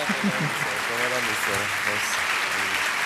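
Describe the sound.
Audience applause fills the whole clip as dense, steady clapping at a constant level, while a man talks over it throughout.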